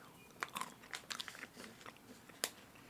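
Roasted pili nuts being bitten and chewed, nuts crunchy on the outside and creamy inside: several crisp, quiet crunches in an uneven rhythm, the sharpest one coming near the end.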